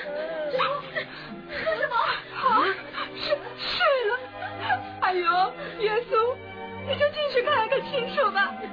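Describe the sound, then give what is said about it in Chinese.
Several people cry and wail over a child thought to be dead, with wavering, sobbing voices that overlap almost without pause, staying fairly quiet throughout. “各位朋友，你们不要难过，不要这样哭。”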